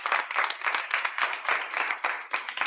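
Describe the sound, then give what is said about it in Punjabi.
Enthusiastic applause from an audience for a child singer: many hands clap in a thick, steady patter. The clapping swells and dips in short waves and stays fairly even from start to finish. “जोरदार तालियां।”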